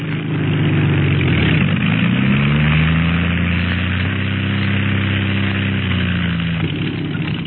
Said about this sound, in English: Look, he's getting ready to land. No wind to worry him either.